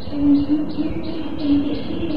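A bird calls in a string of short, high chirps that repeat at a steady rhythm over a low, continuous hum.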